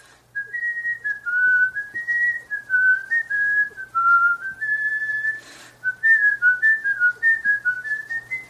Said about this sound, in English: We should stop and let him whistle. Go ahead and whistle. Go ahead, whistle.